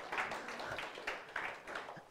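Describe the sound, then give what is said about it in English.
An audience breaks into applause, a steady wash of hand clapping at moderate volume that runs throughout without pause. “And I'll tell you, give him a hand of applause back there.”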